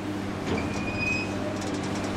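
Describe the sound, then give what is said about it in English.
Dump truck arriving at a sand site, a steady low rumble of a heavy vehicle with a few thin high squeals drifting over it. “And here comes a dump truck.”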